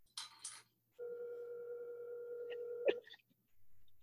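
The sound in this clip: A phone call ringing on speakerphone: one steady, sustained electronic ring tone lasting about two seconds. It follows two short noisy bursts and ends with a brief click.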